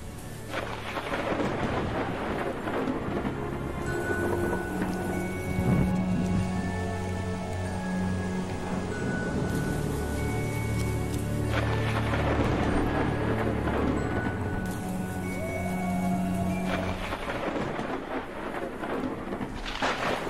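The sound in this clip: Heavy rain pours steadily on a hillside at night, a dense unbroken hiss with several deep rolling thunder rumbles swelling and fading across the storm, with no voices.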